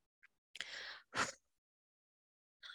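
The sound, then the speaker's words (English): Deep breaths out during a guided breathing relaxation: a long, airy exhale, then a shorter, stronger puff of breath, with faint brief breaths before and after. No talking. “Just breathe it out. I love taking these deep breaths”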